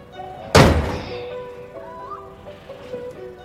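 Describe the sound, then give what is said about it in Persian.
A house door is shut with one loud, heavy thud that decays quickly, leaving a faint tonal background. “وارد خونه میشه و درو میبنده.”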